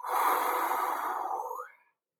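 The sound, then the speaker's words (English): A single long, deep breath, heard as a soft, steady rush of air that holds for nearly two seconds and then fades out, alone with no talk. “Take a deep breath now and let it out.”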